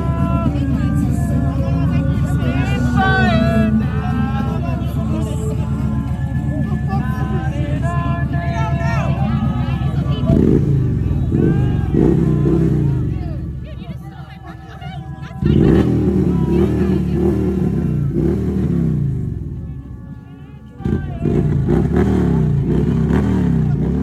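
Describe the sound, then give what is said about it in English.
A car engine revving in a street, with loud rising surges that drop away and return several times amid a crowd of voices. “Go ahead, run it through. Don't just rev it, drive it through.”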